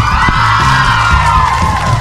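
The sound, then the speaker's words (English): Audience cheering at a live fan event in Tulsa: a loud, continuous crowd roar packed with whoops and yells that holds steady throughout. “This is a huge crowd. Thank you everyone for coming out.”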